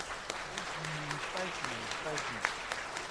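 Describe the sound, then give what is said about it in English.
Audience applause: steady clapping from a group, with a few voices cheering and calling out over it. “Let's give Megan a great round of applause.”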